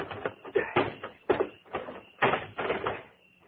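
A heavy trunk being shoved into a hole, many dull thumps and scraping knocks in an uneven rhythm, fading out at the end.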